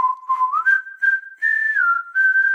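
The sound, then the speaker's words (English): A whistle used as a signal to turn the page in a read-along story: a clear, loud tonal whistle in a few connected phrases, starting at a lower pitch and stepping up, with short breaks between phrases. “If you're reading along, then whenever you hear a whistle,”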